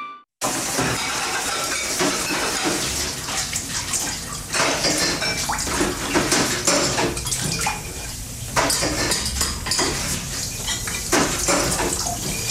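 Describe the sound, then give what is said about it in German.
Dishes are washed by hand under running water as pots, pans and cutlery clatter and clink. Many sharp knocks ride over a continuous rush of water, loud and busy throughout, with brief lulls and no voices. “Sie finden Abwaschen langweilig? Also hören Sie mal.”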